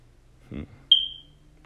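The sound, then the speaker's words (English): A smoke detector that needs a new battery gives a single short, high-pitched chirp. It starts sharply and fades quickly against near silence, just after a brief low sound. “Please excuse the annoying beeping in the background. My smoke detector needs a new battery.”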